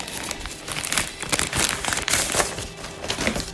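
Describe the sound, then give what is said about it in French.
An envelope is torn open to reach a letter, giving a few seconds of busy, dry paper crinkling and quick ripping bursts, with no voices. “Ok, là il y a une lettre. Je vais l'ouvrir.”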